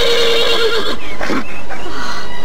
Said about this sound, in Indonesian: Kuda itu mengais-ngais kakinya dan sesekali meringkik keras dengan sikap yang kelihatan marah.